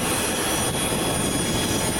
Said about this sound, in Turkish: Depremzedelere destek olmak amacıyla hazırlanan arama kurtarma ve insani yardım ekiplerini taşıyan uçak İstanbul Atatürk Havalimanı'ndan Venezuela'ya uğurlandı.